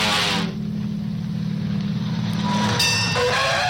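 Engines of cars racing in a Goofy cartoon, a loud, continuous droning rumble over a low humming tone that shifts near the end as a brighter, higher whine comes in.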